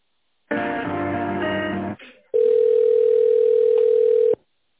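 A single long, steady telephone ringback tone plays while an office call is being transferred. It holds one constant mid pitch for about two seconds before cutting off.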